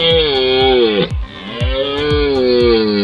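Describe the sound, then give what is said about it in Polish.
A red deer stag roars during the autumn rut in long, loud, harmonic bellows, a drawn-out call broken by a brief pause partway through before the roaring resumes. “Tym pierwszym głosem, który słyszymy podczas rykowiska, to jest głos byka organisty, który rozpoczyna rykowisko.”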